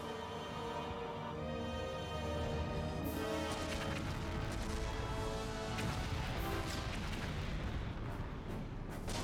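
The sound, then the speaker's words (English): Heavy booming blasts and dense rumbling from a giant robot's missile attack, a continuous, loud wall of crashing explosions that stays intense for the whole stretch with no pauses. “Activating Omega Missile. This better work.”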